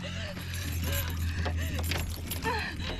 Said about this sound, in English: Flipping open the gas tank door, she finds the keys.